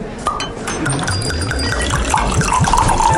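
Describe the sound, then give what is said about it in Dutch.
Wine poured into a glass on a cosy evening in a wine bar: a steady, loud gurgling stream whose pitch climbs as the glass fills, with no talk. “Dat is het geluid van een gezellige avond in Wijnbar de Proeverij.”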